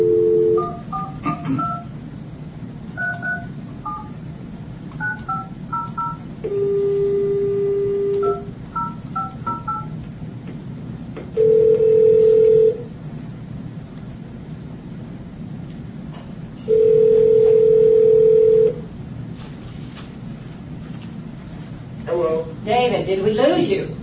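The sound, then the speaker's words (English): Telephone keypad tones dial a station number on a conference phone line: clusters of quick beeps, then several longer steady tones, all over a low hiss. “Please dial the station number you require.”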